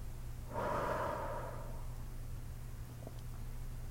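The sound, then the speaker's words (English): A slow, deep breath during a guided breathing exercise: one soft, airy swell of breath rises and then fades, with a steady low hum underneath and no talking. “Big deep breath in. Hold. And out.”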